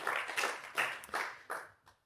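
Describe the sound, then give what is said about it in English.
Golf clap from a few audience members: a handful of soft, slow, evenly spaced claps that trail off toward the end. “Three people with a golf clap, they're right.”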